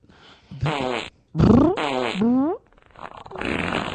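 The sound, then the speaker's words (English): Farts ripped one after the other: a few loud, buzzy blasts with wavering, bending pitch, then a softer, hissier one to finish. “These amazing farts I'm doing right now.”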